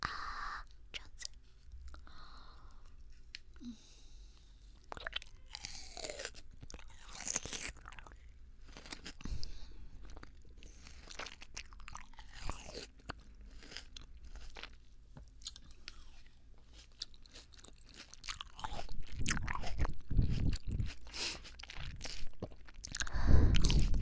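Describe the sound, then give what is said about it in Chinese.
Chewing on fresh-cut fruit in the morning: many soft, crunchy bites and wet mastication sounds, quiet and irregular, growing somewhat louder toward the end, with no talking. “早上就切水果啊，会不会太凉了一点啊？好嘛，尝一尝。”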